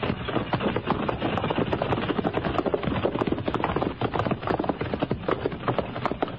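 Hooves of a pony and a string of mules clip-clop steadily as riders approach, a dense run of many overlapping thuds with no pause and no talk.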